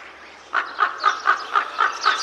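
A crow calls alone in seven rapid, evenly spaced harsh caws, each short and equally loud, forming a quick rhythmic run.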